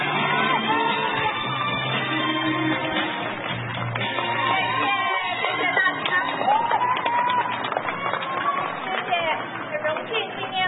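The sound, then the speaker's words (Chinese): Crowd cheering and shouting for a performer about to play, a dense, continuous roar of voices with yells and whoops sustained at an even loudness throughout. “黄瑞静 今天来为我们演奏，掌声鼓励。”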